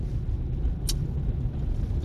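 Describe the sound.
Steady low rumble of a car driving on a road, continuous and even throughout, with one brief high tick near the middle.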